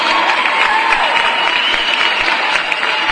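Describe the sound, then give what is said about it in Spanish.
Applause sound effect: a dense, continuous wash of many hands clapping, loud and even from start to finish with no talk over it. “Le mandamos unos aplausos a Tapatía.”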